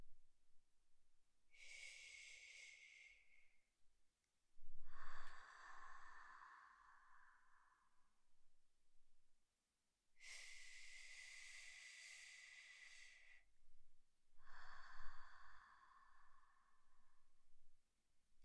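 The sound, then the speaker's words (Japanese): Slow breathing in and out, heard as two unhurried cycles. Each cycle is a soft, hissing inhale followed after a short pause by a longer, breathy exhale. Fairly quiet, with no talking. “ゆっくり吸ってゆっくり吐くから、呼吸のリズムを私に合わせて。”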